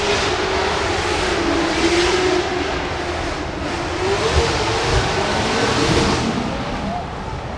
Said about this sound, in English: you're talking upwards 1,200 horsepower on a Mustang going through this track in tandem